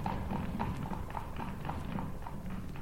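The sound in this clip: Horse hooves clip-clop steadily as a horse pulls a light open carriage, the regular hoofbeats repeating many times at an even trotting rhythm over a constant low rumble.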